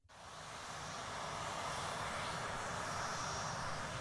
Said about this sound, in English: Now that's the ambient sound of a runway